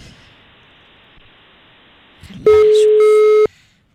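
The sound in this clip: A single steady telephone line tone rings out for about one second as an incoming call to a phone-in contest connects. It rises sharply from a faint noisy background, holds loud and even, then cuts off.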